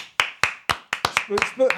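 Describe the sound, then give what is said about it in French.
A man clapping for himself as a guest introduced on a small live show: a handful of crisp, evenly spaced claps that quicken toward the end, with voices joining over the last claps. “On est tellement pas nombreux qu'il s'applaudit lui-même.”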